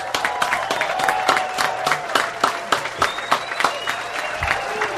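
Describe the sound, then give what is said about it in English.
A comedy club audience applauds a comedian. The clapping is uneven and fairly sparse, with many separate sharp claps scattered across a few seconds rather than a solid roar. “Can we give him a round of applause?”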